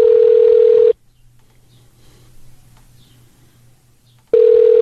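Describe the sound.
Ringback tones of a telephone call placed to a city office: a loud, steady mid-pitched tone, a long quiet pause with faint line hiss and hum, then the same tone again.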